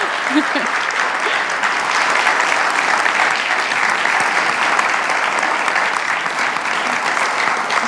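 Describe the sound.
An audience claps steadily and densely for about eight seconds to welcome a speaker to the front, with no break in the applause.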